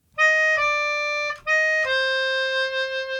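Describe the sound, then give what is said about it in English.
Four notes play on a melodica, the opening phrase of the Dies Irae: a flat third, a second, the flat third again, then the root. The reedy tones are clearly separated. The last note is the lowest and is held longest. “The four notes in question are the flat third and then the second, and then the flat third and then the root, which sounds like this.”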